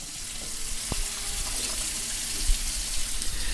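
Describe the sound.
Running tap water as hands are washed under the faucet during bun baking, a steady rushing stream with a few small splashes and clicks, no voices.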